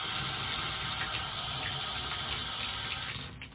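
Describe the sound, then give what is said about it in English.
Water runs steadily in a bathroom toilet, a continuous rushing hiss that holds at an even level and fades slightly near the end. “put it over towards the toilet and run water in the toilet as well. And just put that back up. And the water works”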